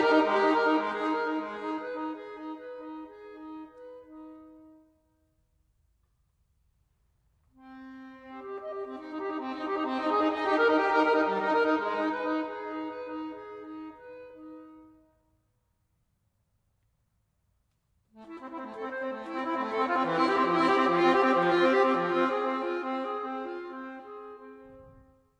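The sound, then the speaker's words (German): An accordion piece written for a solo accordionist, played in three long, dense chordal phrases that swell and fade, each separated by a few seconds of near silence. “das andere Stück heißt Alpha und wurde für eine Akkordeonspielerin geschrieben.”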